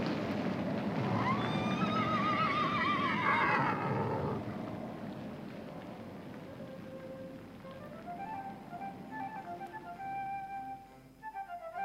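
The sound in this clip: A horse neighs with a loud, quavering, high whinny lasting about four seconds, followed by softer tonal sounds.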